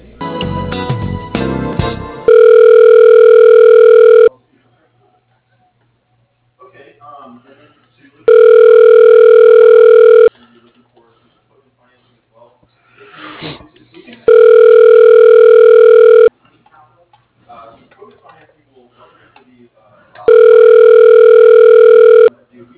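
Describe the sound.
A telephone line rings as the call is transferred to voicemail. Four long, steady ring tones of about two seconds each are separated by pauses with faint murmuring, and a short loud burst of noise comes before the first ring.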